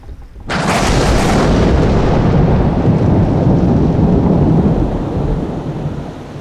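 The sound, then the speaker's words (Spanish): A thunderstorm with heavy rain as a sound effect: a sudden loud crack of thunder breaks in, then a sustained rumbling roar of pouring rain holds steady and eases slightly toward the end. “el cielo comenzó a ponerse gris, las nubes se abrieron, comenzó a llover y comenzó una gran tormenta.”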